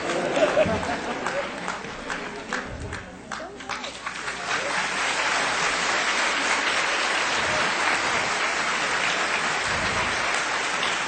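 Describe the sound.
Audience applause welcoming an awaited guest: the first few seconds hold talk and crowd chatter with scattered claps, then the clapping swells into a steady, dense wash that holds to the end.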